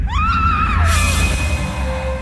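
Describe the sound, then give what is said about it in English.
A woman screams as she is attacked in the dark, a short cry that rises and then falls before breaking off into a sudden bang, with a low hum lingering afterward. “It strikes her in the gloom so fast she barely has time to scream.”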